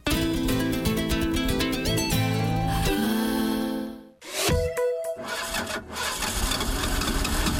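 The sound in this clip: Music plays for about four seconds and then cuts off, leaving a truck engine heard in an ad for Total Rubia oil for long-distance engines: a few sputtering cranks before it catches into a steady, rumbling run.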